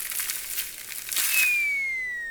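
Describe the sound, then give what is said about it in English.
Rustling in tree branches: a few quick, crisp crinkling bursts of leaves and twigs, then a thin whistling tone that slides steadily downward in pitch and fades. “But he heard a rustling in the branches,”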